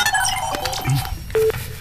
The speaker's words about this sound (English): Okay, we are dialing.